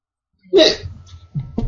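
A burp and a hiccup at the same time: one abrupt, sharp vocal jolt with a brief throaty tail, followed by faint low sounds.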